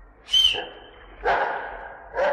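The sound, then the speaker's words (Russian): A St. Bernard dog gives three short vocal bursts, barks with a whining, whistle-like edge, separated by brief gaps. “Какая у тебя собака! Боцман Сен-Бернар.”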